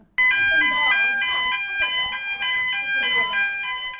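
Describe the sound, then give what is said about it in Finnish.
A school fire alarm siren goes off, sounding a loud, shrill electronic tone in many rapid, regular repeating pulses that run continuously, with talk faintly underneath. “Palosireeni pärähtää soimaan jo toisen kerran tällä viikolla.”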